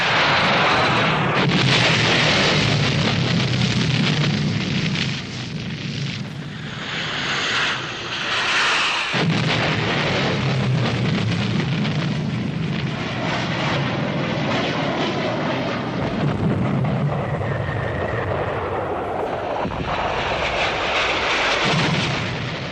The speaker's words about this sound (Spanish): El bombardeo se intensifica.